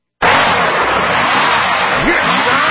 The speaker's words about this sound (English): You hear that? That is the sound. No, that is the sound of the wrecker. That is the sound of the tow truck.